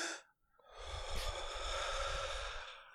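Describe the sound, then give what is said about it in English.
A deep breath is drawn in as a long, airy inhale lasting about two seconds, preceded by a brief breathy puff. It is heard alone, with no talk. “take another deep breath”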